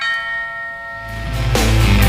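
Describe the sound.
A doorbell chime, played as a radio sound effect, rings with sustained, bright tones that fade before a louder, deeper rumbling swell takes over in the second half.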